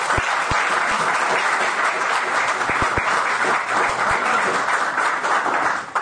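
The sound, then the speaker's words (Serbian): Audience applause at a ceremony after a student's piano sonata performance: dense, steady clapping from many hands that continues at an even level throughout and eases slightly at the very end. “zaslužuje još jedan aplauz”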